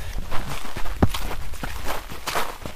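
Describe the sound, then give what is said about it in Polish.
Boots crunching through lichen on a white sand dune: a steady run of dry, crackly crunches with one sharper, louder snap near the middle. “Tak chrzęszczą niektóre rośliny pod butami.”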